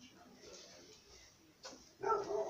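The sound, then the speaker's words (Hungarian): A dog barks during a rural pig slaughter: a short burst, then a louder bark near the end, over a faint background with voices. “Mit ugat a kutya, megnézte?”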